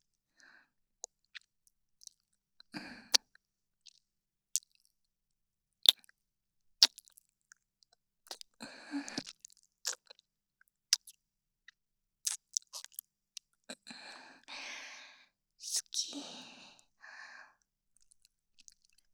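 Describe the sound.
Soft wet kissing smacks in a bedside roleplay: many short, sharp lip clicks scattered throughout, with a few longer squishy bursts in between. No voices.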